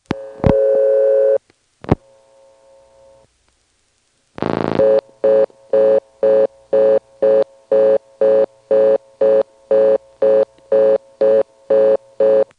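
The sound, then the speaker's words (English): Telephone dialing code 39 for callback on an office phone line. A steady dial tone gives way to a couple of sharp clicks and a faint tone, then a brief burst of noise leads into many short, even busy-signal beeps in a fast, regular rhythm. “Now, to verify there really are only three callback circuits in the office, let's dial 39 outright.”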